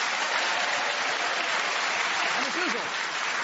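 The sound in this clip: Studio audience applause welcoming four panelists on a comedy panel game: a dense, even roar of clapping, with a brief voice rising over it near the end.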